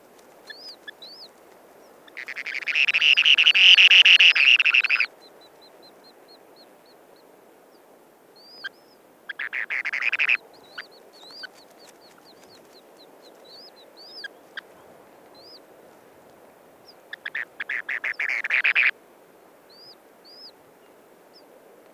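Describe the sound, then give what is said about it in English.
Newly hatched spoon-billed sandpiper chicks and an adult at the nest give thin, high peeps scattered throughout, broken by three louder bursts of buzzy trilling calls, the first and longest early on. “So that's the spoon-billed sandpiper and chicks in their nest, recorded by Garrett Vinn”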